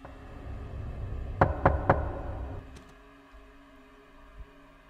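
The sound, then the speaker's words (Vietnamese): Three sharp knocks on a door strike in quick, even succession over a low background hum, followed by a couple of much fainter taps. “thì lão lại giật mình, bởi vì tiếng gõ cửa lại vang lên”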